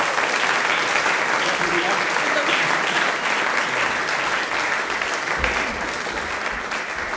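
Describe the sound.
Congregation at a Salvation Army corps service on the first Sunday of the year applauds to welcome guests, with loud, dense clapping that stays full and even throughout.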